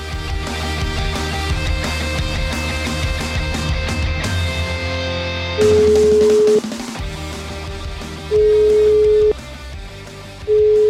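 A telephone call rings out with long, steady ringback tones, each about a second, separated by pauses. Three tones follow a stretch of music, and the last is cut short.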